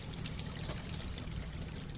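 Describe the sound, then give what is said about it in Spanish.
Liquid pouring from a shot-open truck tank onto dry grass: a continuous, fairly quiet splashing hiss that stays even throughout, with no breaks. No talking. “El gemelo de blanco dispara al depósito. El líquido moja la hierba seca.”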